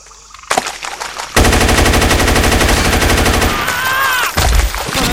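Rapid automatic gunfire from a submachine gun in a shooting video game: a loud, dense, continuous burst of fire lasting several seconds, with a brief break near the end before the firing resumes.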